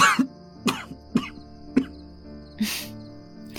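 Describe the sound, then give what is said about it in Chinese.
A man coughing after drawing on a harsh, strong cigarette: five short, dry coughs spaced out in an uneven rhythm, with quiet gaps between them. “那辛辣的滋味入喉，令他不适地咳嗽了两声。”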